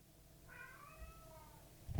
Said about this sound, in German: Du kannst da nicht raus, du bist eine Katze.